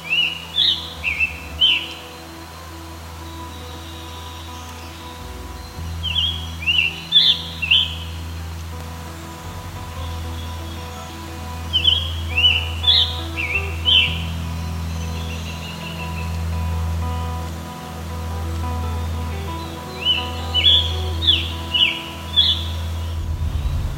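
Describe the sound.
A scarlet tanager sings in the tree canopy on a midsummer day in Ontario. Its hoarse, burry, robin-like phrases come in about five short bursts separated by pauses, over a steady low background hum.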